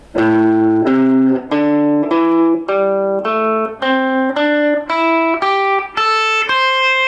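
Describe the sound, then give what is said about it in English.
A blues scale played one note at a time on guitar: a steady series of single plucked notes climbing in pitch, each ringing briefly before the next, loud and alone with no voices. “So today I'm going to show you what's called the blues scale. And a scale, all that means is it's a group of notes and you play them one at a time. And it sounds like this.”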